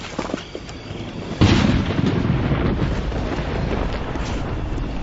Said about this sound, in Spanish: Tormenta eléctrica. Sonido.